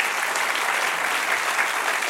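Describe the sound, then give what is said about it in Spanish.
Church audience applause, a thick continuous wash of clapping at a loud, steady level throughout, with no distinct voices over it. “Dale un aplauso al Señor otra vez.”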